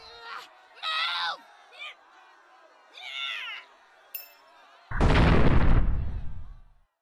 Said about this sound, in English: But I've only got one more grenade, so let's get out of here before they can regroup. That'll hold them for a minute if it didn't kill them outright.